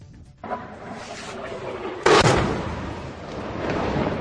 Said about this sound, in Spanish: Esto que están escuchando es el ruido de las bombas lanzadas por Rusia en Siria.